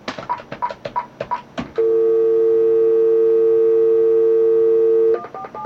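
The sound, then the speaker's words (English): Telephone tones: a quick run of many short keypad beeps, then one long, loud, unbroken tone, and a few more short beeps at the end. “So, I'm going to have to make up a phone call. Here we go.”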